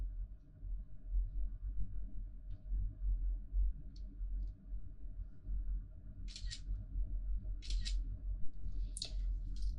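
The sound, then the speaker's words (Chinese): Camera shutter clicks as photos are taken of a body during a forensic autopsy: a few sharp, bright double clicks spaced a second or so apart over a steady low hum. “接下来进行拍照取样。”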